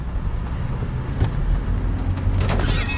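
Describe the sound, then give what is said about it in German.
A car's nearly new wheel rim scrapes against a curb: a brief harsh grinding burst over a steady low car rumble, followed by a second rougher scrape a moment later. “Oh, ich glaube, das war die Felge. Oh nein, die Felgen waren noch so gut wie neu und jetzt sind sie einfach komplett glanzgedreht.”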